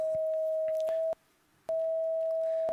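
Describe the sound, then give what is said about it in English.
An electronic color sensor chip, heard through bone conduction, sounds a steady mid-pitched pure tone for purple. The tone drops out briefly near the middle, then resumes at the same pitch. “this is the sound of purple.”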